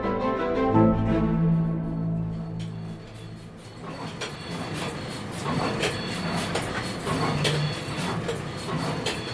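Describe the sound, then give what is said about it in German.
Machinery running in a solar cell factory, sounding much like a train: a steady tonal hum at first gives way to continuous rattling, clacking mechanical noise with a rhythmic texture. “Was wir da hören, ist keine Lokomotive, nein, es ist eine Solarzellenfabrik.”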